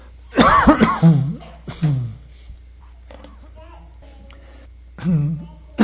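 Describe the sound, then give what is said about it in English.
Coughing fits from someone whose drink went down the wrong way: a few harsh, rough bursts, the first one long and strained, with quiet gaps between them. “Drinking down the wrong way, I'm sorry.”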